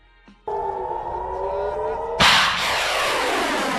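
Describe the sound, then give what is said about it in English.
An Iron Dome interceptor rocket explodes in the air. A steady droning whine is followed by one sudden, loud blast that rolls off into a long, noisy rumble. “All it does is send up rockets that explode in the air and don't actually intercept anything.”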